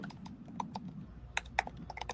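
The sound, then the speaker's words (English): Typing on a computer keyboard: many faint, quick, irregular clicks of keys, sparse at first and then denser and sharper toward the end, with no voices. “you're not on your mic because I can hear your keyboard”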